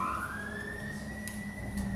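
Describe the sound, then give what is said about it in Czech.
A fire engine siren sounds faintly as one sustained tone that climbs slightly at first and then holds steady over a low rumble. “Ano, hasiči.”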